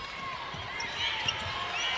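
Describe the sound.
Basketball dribbling during a women's basketball game: a few soft, low bounces of the ball on the court, faint beneath a steady wash of arena crowd noise.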